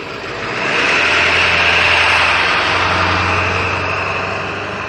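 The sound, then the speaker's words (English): A noisy truck engine idles in a steady, loud, low rumble with a broad roaring hiss above it, swelling slightly after the first second and holding level throughout with no voices. “my goodness, what a noisy truck”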